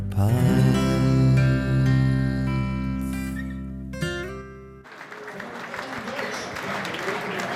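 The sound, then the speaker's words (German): Audience applause at a stage show honouring a veteran football champion breaks out after about five seconds of sustained musical tones, then carries on as a steady, even clatter of clapping to the end. “mit diesem Applaus für Kalli Feldkamp gehen wir hier raus.”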